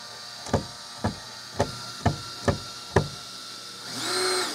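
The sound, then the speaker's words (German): Screwing a screw through a sign: six sharp, evenly spaced knocks, then a brief swelling mechanical whir at the end. “So, warte mal, das Schild an sich muss noch ein Stück höher. Dann schraube ihn durch.”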